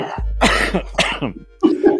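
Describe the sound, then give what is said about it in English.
A smoker's cough: a few rough, raspy coughs mixed with throat clearing, loud and in quick succession. “All this talk of smoking is making my smoker's cough come back.”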